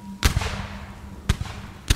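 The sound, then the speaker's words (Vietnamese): Several gunshots fired in anger, heard as a few sharp, loud bangs spaced unevenly across two seconds, each a sudden crack with a short decaying tail. “Ông Hiếu khuôn mặt như điên lên, quay lại Xí mà nổ liền mấy phát súng.”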